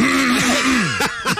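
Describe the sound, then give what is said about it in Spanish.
A voice imitating throat clearing, a short gravelly vocal rasp with a couple of gliding voiced sounds followed by a few brief, harsher bursts, all fairly loud with no other sound behind it. “La carraspeada siempre venía ahí.”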